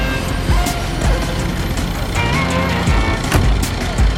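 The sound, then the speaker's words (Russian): A taxi pulls away from an airport terminal and merges into traffic. Steady, loud engine and road rumble continue throughout, with intermittent thumps and tonal whines from the surrounding vehicles. “Такси отъезжает от терминала и вливается в поток машин.”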